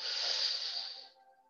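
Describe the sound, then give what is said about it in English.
A single slow, deep inhale taken during a guided breathing meditation, a soft airy hiss that holds for about a second before tapering off into quiet. “Let's go there now as we take our first breath, a deep inhale.”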